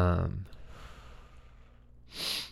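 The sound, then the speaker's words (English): Heavy breathing while catching breath, with a strong, throaty exhale at the start and another rush of airy breath near the end. “sorry, I gotta like get my breath. I haven't done this in a while.”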